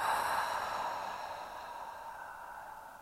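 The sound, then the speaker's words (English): A slow, deep breath drawn in and let out during a guided breathing exercise: one long, soft, airy stream that is faint throughout and gradually tapers off. “So just take a deep breath in and out.”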